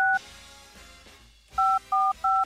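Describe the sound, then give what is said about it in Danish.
Telephone keypad tones as a call is placed: one beep at the start, a pause filled with low background noise, then three more beeps in quick succession, all clear and fairly loud. “Nu ringer jeg lige til dig.”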